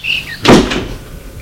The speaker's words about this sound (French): Elle ferme la porte derrière lui.